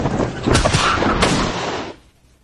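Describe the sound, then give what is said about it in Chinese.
Gunfire in an alley: two shots from different guns, a sniper's among them, fired at the same instant. A few sharp cracks ride over a loud, rumbling blast that holds for about two seconds, then cuts off into near silence. “从不同枪支里射出的两枚子弹叠合在一起的声音彻底打破了小巷的宁静。”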